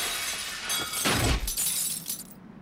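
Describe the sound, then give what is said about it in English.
A raised glass roof over a courtyard shatters as a person falls through it from an atrium walkway. A loud crash of breaking glass is followed by a bright, crackling spill of shards that fades, then cuts off abruptly. “she plunges down the atrium, smashing through the raised glass roof that covers the courtyard below, and landing amongst thick rolls of building insulation.”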